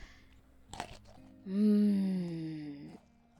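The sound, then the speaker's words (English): A crunchy bite into a pumpkin spice cookie gives a brief crackle, followed by a loud, sustained hummed 'mmm' of enjoyment. “There's no rule that says I'm not allowed to eat stuff on your turn. Searching every shelf in 4 stores for pumpkin spice products really works up an appetite.”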